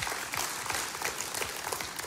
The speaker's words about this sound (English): Yeah, you can clap to that.